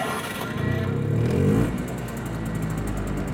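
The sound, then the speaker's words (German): A three-wheeled two-stroke vehicle drives by with a rough engine drone that swells briefly, then settles into a steady, fairly loud running noise. “Da fährt einer mit einem dreirädrigen Zweitakter.”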